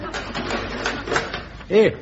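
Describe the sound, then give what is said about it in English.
A door closing by itself, marked by a short creaking squeal near the end, heard under people talking. “Here, this door. Door's closed itself.”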